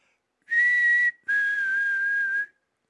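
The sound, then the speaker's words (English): A whistle is blown to get attention: two loud, steady high-pitched blasts, a short one followed after a brief gap by a longer one, with nothing else heard. “That's the whistle I have to use to try to get Democrats' attention.”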